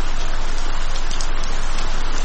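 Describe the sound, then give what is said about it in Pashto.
Heavy rain pours down in a dense, loud, unbroken hiss that stays steady throughout. “باران تیز شو، داسې شرشورې شو لکه ناوې چې له اسمان راخوشي شي.”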